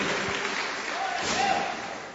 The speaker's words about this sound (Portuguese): Nós vamos receber o nosso pastor agora com aquelas palmas alegres para Jesus.